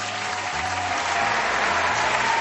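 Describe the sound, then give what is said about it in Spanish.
Steady crowd applause from an audience at a live show, a dense wash of clapping that stays continuous and grows slightly fuller toward the end. “Aplausos. Trajimos público y queremos que lo sepan.”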